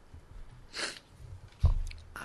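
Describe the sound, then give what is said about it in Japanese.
Chewing a cherry tomato topped with camembert, olive oil, shiso leaf and yukari, heard as a few soft, wet bites and mouth sounds with one sharper crunchy burst, and no talking. “このオリーブオイルをかけた、うん、カマンベールと青じそとゆかり、 はい、ゆかり、はい、 うん、いただきます。”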